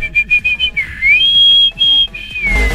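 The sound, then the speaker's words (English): A referee's whistle sounds in a series of shrill blasts: short bursts first, then longer held tones whose pitch wavers, steps up and slides down, loud and without talk. “this is when the ref would blow the whistle”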